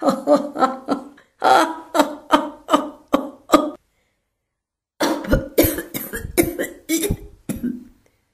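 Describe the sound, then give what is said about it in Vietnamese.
A man laughs and coughs up blood in many harsh, rapid bursts, one short group, a brief pause, then another ragged run of coughs mixed with strained laughter. “Ông ta vừa cười, vừa ho ra máu, giống như sắp đem tất cả nội tạng mà đẩy ra ngoài.”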